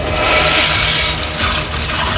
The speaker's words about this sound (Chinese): 马桶水箱还不断发出哗啦啦的冲水声